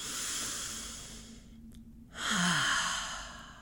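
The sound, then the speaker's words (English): A slow relaxation breath during a guided meditation: a soft, airy inhale, a brief pause, then a louder, fuller sighing exhale that fades out. No talking. “Just breathe in through the nose and out through the mouth.”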